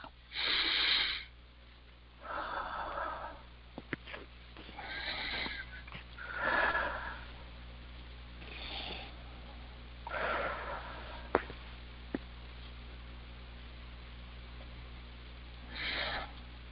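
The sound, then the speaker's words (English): Deep breathing during a guided healing prayer: a few slow, airy inhales and exhales, each a drawn-out soft rush of air separated by quiet pauses, with no other sound around them. “3 nice deep breaths.”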